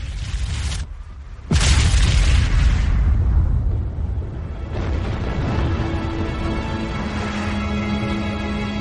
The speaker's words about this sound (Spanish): Al final, la estrella se colapsa y explota.